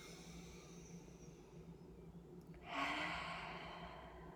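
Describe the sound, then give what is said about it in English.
A forceful breath during a breathwork exercise: after a quiet stretch, one strong, airy rush of breath swells up quickly and then slowly tapers off. “Breathe in a little bit faster and harder. And breathe out, glue the palms together.”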